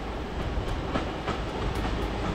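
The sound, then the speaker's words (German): Passenger train at a railway station, giving a steady, loud rolling rumble with faint intermittent clicks from the wheels running throughout. “Die meisten per AKN, wie hier vom Bahnhof in Bad Bram steht.”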